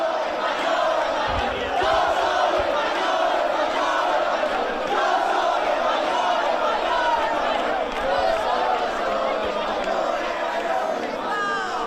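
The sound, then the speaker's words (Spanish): Crowd of protesters in a Madrid street, moving along Calle Alcalá, makes a dense, steady roar of many voices with shouting and chanting, loud and unbroken throughout. “es mucha gente la que está hoy en Madrid y seguramente han venido aquí rapidísimo, pero esta imagen está ocurriendo, quiero decir, esto está pasando, hay seguridad, estamos viendo, escuchad.”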